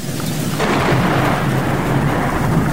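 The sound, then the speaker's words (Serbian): Thunderstorm with rain: a continuous rumble of thunder swells over dense, steady rainfall, the roar deepening and spreading after the first half-second and staying loud throughout. “Zar baš po ovakvom nevremenu?”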